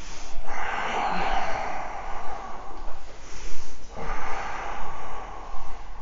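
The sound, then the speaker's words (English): Deep yoga breathing, slow and audible, with long airy breaths drawn in and let out in broad swells separated by brief pauses, fairly loud and alone without talk. “Take a breath in. Breath out.”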